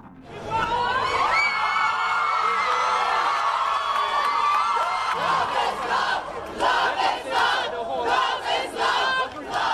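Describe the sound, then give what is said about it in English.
Crowd celebrating on the steps of the High Court of Trinidad and Tobago, with loud, sustained cheering, whoops and shouting that carry on throughout without a break. “The sounds of celebration on the steps of the High Court of Trinidad and Tobago on April 12th”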